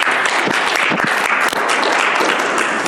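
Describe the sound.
An audience gives dense, sustained applause to welcome a returning speaker, the clapping steady and loud throughout.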